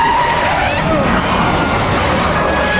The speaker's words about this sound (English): He swerves, avoiding the car. The sedan skids out of control.